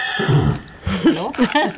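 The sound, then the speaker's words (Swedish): A dog snorts and snuffles right beside the speakers, giving a few throaty, nasal, grunting bursts with a voiced, whinny-like tone and short pauses between them. “Det som snorklar här bredvid, det är Annas hund. Bara så ni vet, det är inte så att någon har ont i magen eller något,”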